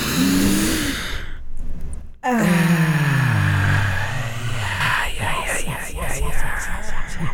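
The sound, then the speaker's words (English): A deep cleansing breath ends in a long, voiced, sighing exhale that slides steadily downward in pitch. Breathy, murmuring vocal sounds follow at a lower level. “let's take a cleansing breath. One, two, three.”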